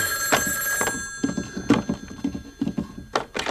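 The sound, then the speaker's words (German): A telephone bell rings at a farm outside a town in the early morning, a sustained ringing tone broken into many rapid rattling pulses, with no talking. “Das Telefon weckte mich um 5:05.”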